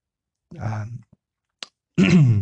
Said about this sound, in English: excuse me, I had a bit of a frog in my throat there.